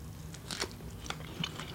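Someone bites into a strawberry sprinkled with MSG, making a few faint, soft, wet crunches spaced apart over quiet background noise.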